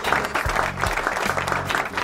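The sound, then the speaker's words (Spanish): Applause played as a sound effect to reward correct quiz answers, a dense, steady wash of crowd clapping that stays loud and even throughout. “Y aplauso a todos nuestros queridos oyentes que han acertado la respuesta”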